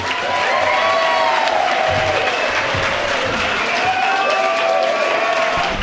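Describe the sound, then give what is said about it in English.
An audience at a talk welcomes the speaker with sustained applause, thick and even, with cheers and a few whoops rising over the clapping. “And without further ado, will you please join me in welcoming Mike Dooley.”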